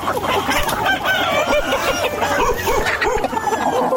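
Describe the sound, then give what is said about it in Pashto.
Hens and roosters, a flock of more than thirty kept at the edge of a mud house in Ghazni, Afghanistan, cluck and call in a steady, overlapping chorus that continues without a break for the whole stretch. “درخانه د خپل خټین کور په یو څنډه کې تر دېش تانې زیات چرګي چرګان ساتلي”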